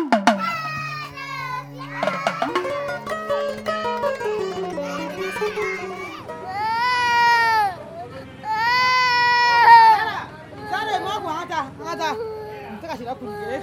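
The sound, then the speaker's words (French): A young child cries and wails while struggling to escape a hairdresser who holds them between her thighs. Loud, pitched sobs and drawn-out howls come in uneven bursts with brief whimpers between. “Vous entendez là le cri d'un enfant qui se débat entre les cuisses de la coiffeuse pour essayer de s'échapper.”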